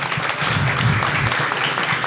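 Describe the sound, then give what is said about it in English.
Audience applause at a gathering in Memphis: dense, steady hand clapping from a crowd that holds at an even level for about two seconds. “Now, you're clapping”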